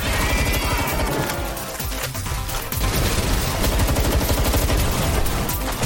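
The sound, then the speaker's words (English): Rapid gunfire and combat noise from a violent creature-collecting video game: dense, continuous bursts of shots crackle without pause, loud and chaotic from start to finish. “A new game called Palworld, a violent satire of the Pokemon franchise, has become one of the fastest-selling independent video games ever. It sounds like this.”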